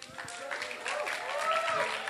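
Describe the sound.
An audience applauds to welcome a speaker, dense steady clapping that swells slightly louder toward the end, mixed with voices.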